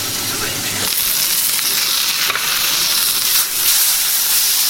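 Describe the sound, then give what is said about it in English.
A burger patty sizzles while frying, giving a loud, steady, bright hiss that runs unbroken through the whole stretch, with only slight dips in the spitting crackle. “burger flip. Time to put a bit more crust on the other side.”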